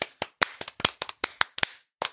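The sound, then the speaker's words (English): Sharp hand claps ring out in a quick, slightly uneven run of many claps, fairly loud, then a short pause before one final clap. “So, yeah. Bravo. Claps for him.”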